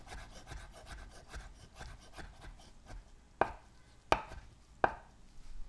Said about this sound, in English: dismantling hard-boiled eggs left and right